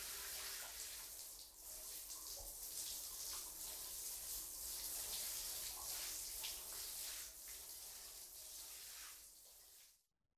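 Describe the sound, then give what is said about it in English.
A shower runs with a steady, broad hiss of spraying water, faint and even for about ten seconds before it stops abruptly. “He's having a shower.”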